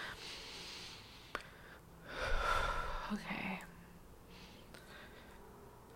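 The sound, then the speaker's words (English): A person takes one deep breath, a soft airy whoosh that swells for about a second and a half and then fades. It is faint and heard on its own. “Let me just take a deep breath.”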